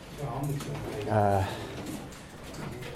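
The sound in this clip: Low pigeon-like cooing from birds inside an aviary, a soft throaty burst swelling briefly near the middle over a steady murmur, with muffled voices underneath.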